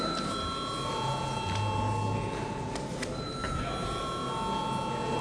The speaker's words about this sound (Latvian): Lūdzu zvanu!